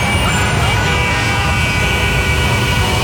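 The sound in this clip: A traffic jam rumbles with steady, dense roadway noise from idling vehicles, a loud, unbroken wash of low rumble and hiss that stays constant throughout.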